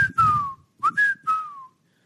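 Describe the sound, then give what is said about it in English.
A wigeon duck call blown on a whistle: a few breathy, high whistled notes with a short pause, several of them sliding downward in pitch. “that's generally the old widgeon call”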